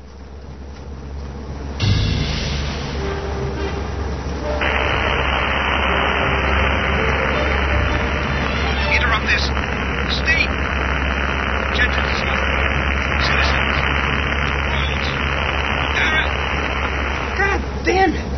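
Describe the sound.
A car engine drones steadily while driving, with constant low rumble and road noise throughout as people talk over it.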